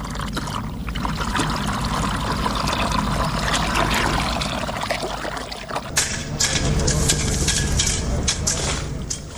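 Water flowing as a woman irrigates her farm field, a continuous rushing, trickling wash that runs steadily throughout with slight swells in loudness.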